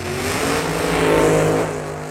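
A race car engine revs at the starting line before a 20-lap race. It gives a loud, steady, buzzing drone that swells slightly in the middle and then eases back, with no voices.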